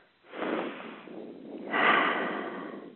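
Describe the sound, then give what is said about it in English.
A big, deep breath is drawn and let out, heard alone as two soft, airy surges of breathing with a slight nasal edge. “And so let's all take a big, deep breath.”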